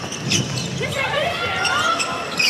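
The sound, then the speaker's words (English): A basketball dribbled on the court during a women's game, a few quick thudding bounces heard beneath a commentator's voice. “Payne tries to dribble it in.”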